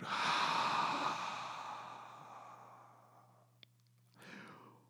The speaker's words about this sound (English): we'll seal our practice with a deep breath in